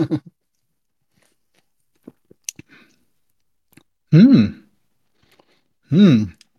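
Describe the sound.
Soft lip smacks and small mouth clicks as someone tastes an Iced Vanilla Berry energy drink, then two voiced, wavering hums of appreciation separated by a quiet pause.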